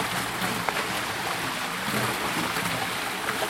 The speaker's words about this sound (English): What you're hearing is the gentle waves of the excess water. It's just overflowing on a concrete ledge down a series of steps